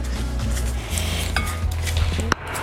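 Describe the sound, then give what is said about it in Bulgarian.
A utensil scrapes and clinks against a bowl while dry ingredients are mixed, in a steady, continuous clatter that runs through the whole moment, with one sharper clink near the end and no talking. “Смесваме си сухите съставки, внимателно.”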